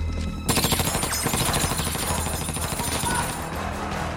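Rapid automatic gunfire in a film corridor shootout against running German soldiers: dense bursts of sharp cracks start abruptly and continue loudly over a thick, rumbling backdrop for several seconds.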